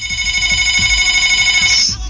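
An incoming call rings on a telephone with a loud, steady, high electronic trill that sounds continuously before cutting off abruptly near the end.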